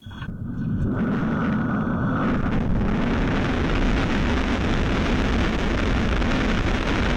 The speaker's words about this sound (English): what it sounds like on board the rocket as it shoots into space and falls back